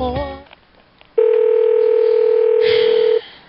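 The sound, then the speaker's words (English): A telephone dial tone plays on a phone that had just started working again: one steady, unbroken tone holds at an even level for about two seconds, then cuts off abruptly after a brief burst of other sound. “Fucking phone. Ah, now it's working.”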